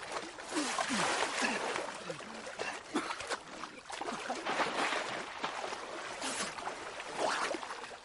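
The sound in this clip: Water splashes and sloshes as a man is held and his head is pushed under the water in a fight in a 2015 drama film. Many irregular bursts come and go at a moderate level.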